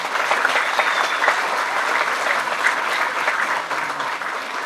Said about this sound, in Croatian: a vas da je pozdravite još jednim pljeskom